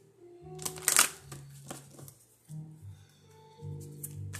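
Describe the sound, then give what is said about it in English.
Cards being shuffled and drawn from a deck of angel cards: a few soft papery rustles with one sharper riffle early on, fairly quiet over a faint low hum. “I want to pull another um, angel card real quick.”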